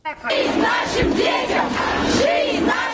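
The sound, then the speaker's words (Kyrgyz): Crowd of anti-war protesters chanting slogans on Moscow's Arbat: many voices raised together in a loud, continuous, rhythmic roar that holds steady for the whole stretch. “Москвада арбатка чыккандар балдарыбызга жашоо, согушка жок деп ураан чакырып турушту.”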